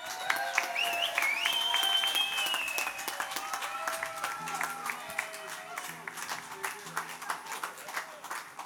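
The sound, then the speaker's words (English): An audience claps warmly as a performer is welcomed onto the stage. Whistles rise over the loud applause early on, then a voice comes in as the clapping thins out. “Would please put your hands together for Mr. Sam Jackson.”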